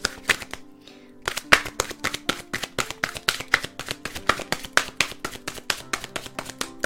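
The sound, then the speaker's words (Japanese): An oracle card deck being shuffled: after a brief pause comes a long run of crisp, rapid riffling taps in a fairly even rhythm. “今日はシンプルアンサーオラクルカードから1枚もらっていきます。”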